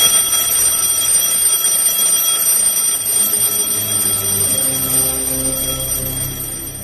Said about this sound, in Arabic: وسمعت صوت المنبه.